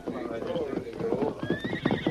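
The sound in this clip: Saddled horses neigh and their hooves clip-clop in a quick, uneven patter, with a high whinny rising toward the end.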